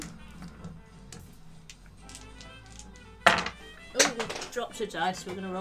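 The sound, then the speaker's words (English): Dice are dropped and rolled during a tabletop role-playing game session, giving a few sharp knocks and clatters among people talking. “Dropped a dice, so we're going to roll another one.”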